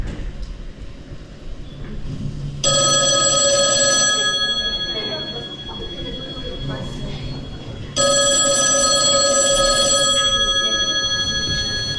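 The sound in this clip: A telephone rings in two long, loud bursts of bright, steady electronic tones, each one trailing off gradually. A constant background rumble of noise runs underneath throughout.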